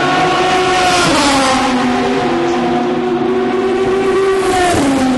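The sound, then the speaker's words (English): A Dome Judd race car goes by with a loud, whining engine note. The tone holds high and dips sharply a couple of times as it passes, with no talk. “That was the Dome Judd, that last one going by.”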